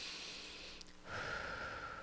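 A deep breath drawn slowly, a soft airy rush of air that runs steadily for about two seconds and shifts in tone partway through, quiet and alone with no talking.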